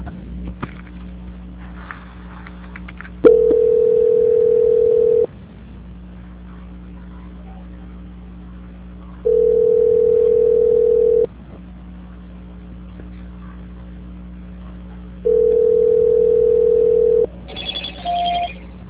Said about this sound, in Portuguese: A ligação ficará muda por alguns instantes, peço por favor que não desligue. Desejo a senhora um excelente dia, só um minuto por favor que eu vou transferir a sua ligação. Transferência.